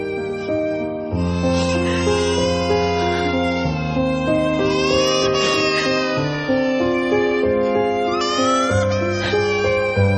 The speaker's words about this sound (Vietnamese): Phía bên giặc, tiếng khóc đứa nhỏ lại ngằn ngặt vang lên. Trái tim non nớt của nó như linh cảm một chuyện chẳng lành, nên giọng khóc nghe chiều thắt ruột.